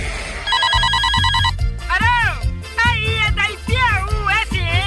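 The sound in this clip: A telephone rings for a caller phoning a radio show, giving a bright, trilling electronic tone for about a second before voices start talking over a steady musical beat.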